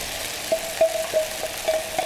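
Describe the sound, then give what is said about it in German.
A spoon folds chives into a turmeric-yellowed, scrambled-egg-style mixture, making several soft scraping, stirring strokes in an uneven rhythm over a low, steady hiss. “Dann wird das Ganze untergehoben. Es sieht genauso aus wie Rührei.”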